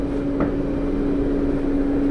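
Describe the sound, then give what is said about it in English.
An antique electric blower from about the 1940s, a huge fan with an electric motor supplying wind to a church organ, hums loudly and steadily. A constant low tone sits inside broad, unbroken rushing air. “This is the blower, which is a huge fan in that case with an electric motor that itself is an antique, probably dating from the 1940s, which is supplying all the wind to the organ”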